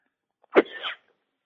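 A single sneeze bursts out sharply and ends within half a second, with quiet before and after.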